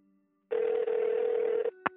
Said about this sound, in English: with his other, he dialed the number he had dialed in anger so many times before.